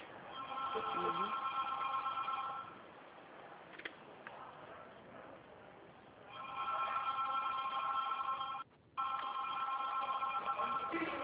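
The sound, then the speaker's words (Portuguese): A mobile phone rings with a bright, warbling ringtone in two long bursts separated by a quieter pause, the tone thin and band-limited. “Quando você vier aí, eu vou atender meu celular.”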